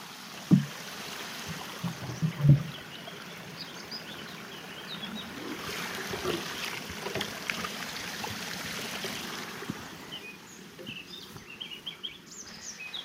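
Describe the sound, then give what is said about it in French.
Water being scooped from a pond that is still fairly full: two brief splashy knocks early on, followed by a soft, steady watery trickle. “généralement, je prends l'eau de l'étang quand il est assez haut. Là, il est encore bien haut.”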